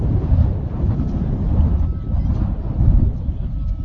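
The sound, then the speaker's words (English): Wind buffets the microphone at an outdoor high school football game, St. Mary's against Kindred. It makes a heavy, rumbling low roar that surges and dips throughout, with no clear voices. “I don't mean to sound like a broken record, but does it seem like the wind's picking up rather than calming down? I would say that the wind is picking up.”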